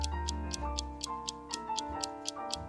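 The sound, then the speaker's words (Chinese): A watch ticks in sharp, even clicks at a quick, regular pace, about four per second, with soft music playing underneath. “表的滴答声也很好听吗？”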